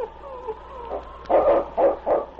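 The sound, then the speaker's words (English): A large tracking dog on a trail gives a few sharp barks in short, loud bursts after a softer whining lead-in, with no talk over them. “The great dog circled back and forth across the trail. Finally, he paused and gave a sharp bark.”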